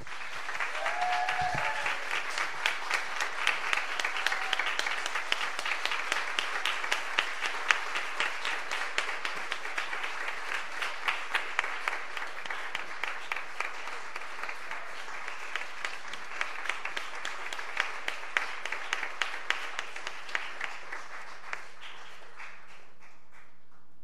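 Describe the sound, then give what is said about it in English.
Sustained audience applause welcomes a speaker to a faith gathering on social justice, a dense, even patter of clapping lasting over twenty seconds without talk. “So let's give Wanda Johnson another warm welcome.”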